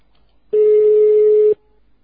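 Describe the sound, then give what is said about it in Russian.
A single loud, mid-pitched telephone tone signals an incoming long-distance call. It is one steady beep of about a second that starts and stops abruptly, with near silence before and after. “Междугородний входящий звонок.”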